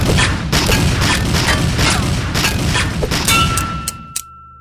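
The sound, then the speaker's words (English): Gunshots, with bullets striking and being blocked by a metal shovel. Dense, loud, noisy bursts of gunfire run together, then a sustained metallic ring and a final sharp clang before the sound cuts off. “You blocked those bullets with your shovel.”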